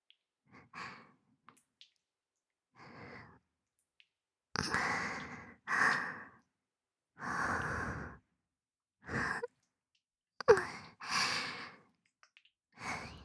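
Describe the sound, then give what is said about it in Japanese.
Heavy, ragged breathing from an aroused speaker in an intimate erotic role-play: a series of airy breaths and sighs separated by short silences, quiet and close, with no speech. “私も興奮してるよ。私の呼吸、荒いでしょ。”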